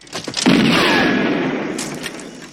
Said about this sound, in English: The killer ducks for cover and returns fire while Joan scrambles under the bus.